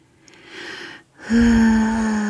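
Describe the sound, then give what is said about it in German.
A long, deep sniff through the nose, a breathy hiss that swells and then cuts off. After a brief pause, a steady, sustained tone begins and holds to the end. “riech doch mal richtig hin. Schließe deine Augen.”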